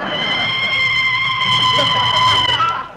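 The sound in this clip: Tires screech as a car brakes hard to a sudden stop: a loud, sustained, high squeal that holds steady for about three seconds and then tails off at the end.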